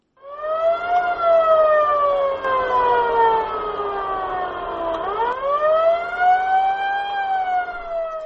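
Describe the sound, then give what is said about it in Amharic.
Ambulance siren wailing as the vehicle rushes wounded people near the Cameroon–Central African Republic border. A loud continuous tone sweeps slowly downward for several seconds, then climbs quickly and levels off. “ይህ አምቡላንስ ሁለቱን ሀገሮች በሚያዋስነው ድንበር ላይ በካሜሩን ወታደሮችና በታጠቁ የማዕከላዊ አፍሪካ ሪፑብሊክ ቡድኖች መካከል የቆሰሉትን ሰዎች ይዞ እየተጣደፈ ነው።”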